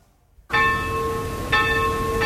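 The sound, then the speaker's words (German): Church bells ring for a wedding: three loud strokes, each followed by long, sustained metallic tones that overlap and hang in the air, with nothing else heard. “ja, vielleicht haben ja die Hochzeitsglocken geläutet”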